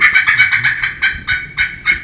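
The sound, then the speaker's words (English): A wild turkey cackle made on a friction call with a striker: a quick run of sharp, clucking notes that gives way to a few slower, evenly spaced clucks, loud and alone. “Now, cackling is great. I love to cackle. And it's all about hand coordination. Once again, you're trying to take the striker”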